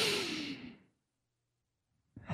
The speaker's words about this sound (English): Hold in your abdominals. Take a big deep breath.